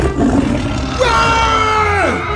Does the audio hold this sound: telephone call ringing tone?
no